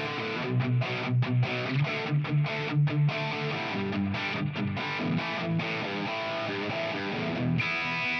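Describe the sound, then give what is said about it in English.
Electric guitar on the bridge humbucker, played through a Royal Tone distortion box into a plexi-style amp tone on a Fender Tone Master Pro floorboard, chugs in tight, rhythmic chords with short choked gaps, then rings out a sustained chord. “I've also set up another distortion box called a royal tone. It's like a king of tone. If I go bridge humbucker,”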